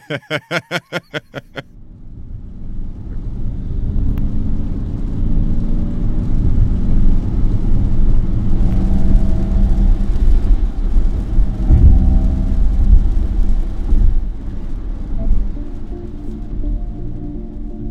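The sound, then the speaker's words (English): A Ford Mustang Mach-E electric car plays its artificial propulsion sound, a low, steady whirring hum. It swells in after a rapid series of sharp clicks at the start and then holds as a fairly loud rumbling drone. “That's an artificial propulsive sound. And it's, we took the Mach-E out and drove it in Williamsburg, and I'll tell you what, it was pretty quiet.”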